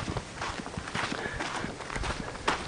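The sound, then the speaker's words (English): Footsteps walk outdoors on a rural property with fruit trees, grapevines and a cat shelter. Many crunchy steps fall in a steady rhythm, with no talking. “We'll walk down here now.”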